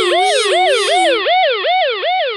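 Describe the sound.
An emergency siren yelps in quick, repeated rising and falling sweeps, loud and alone. A second, higher wailing tone rides over it during the first half.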